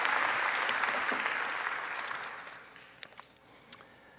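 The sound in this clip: An audience applauds to welcome a speaker, dense steady clapping that thins and fades over a few seconds, leaving a few scattered claps at the end.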